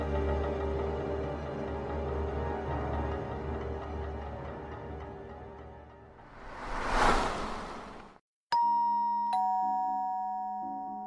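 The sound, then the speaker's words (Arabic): A doorbell chimes two clear ding-dong tones near the end, after a swelling whoosh and a sustained musical drone fade out. “الساعة 7 بالظبط رن جرس الباب.”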